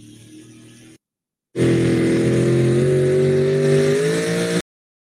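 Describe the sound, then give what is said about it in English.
A drag racing truck launches off the line: a brief engine sound, a short silence, then about three seconds of loud, sustained engine roar whose pitch climbs slightly before cutting off abruptly. “On the replay here, nice and smooth off the line. Truck goes just straight as an arrow.”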